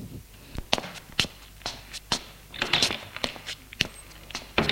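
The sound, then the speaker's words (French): Footsteps walking along a corridor and going down stairs, many uneven, faint thuds and scuffs at an irregular rhythm, with no talking. “Suivent le couloir et descendent des escaliers.”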